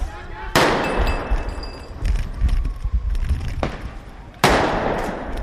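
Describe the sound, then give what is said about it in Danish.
Large firecrackers thrown at police during a street riot: a few loud, sharp explosive bangs spaced seconds apart, each with a ringing decaying tail, over a busy, noisy background. “De kaster det med kanonslag. De kaster mod politiet, der står i den retning, hvor jeg er.”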